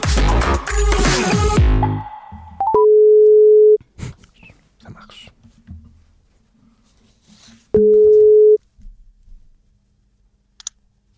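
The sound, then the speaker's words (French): A telephone call being placed: two steady, even ringback tones, each about a second long, separated by a few seconds of faint clicks and line noise. “Merci parce qu'on a un appel à passer, figurez-vous.”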